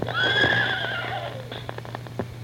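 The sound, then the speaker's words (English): A horse gives a single loud whinny with a high, wavering pitch that slides downward as it fades, followed by a few sharp, faint clicks. “Hey, and their horses, Silver and Trigger.”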